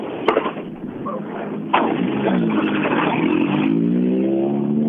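A rally car drives past during a rally, its engine roaring loud and growing stronger midway, with the engine pitch climbing steadily toward the end.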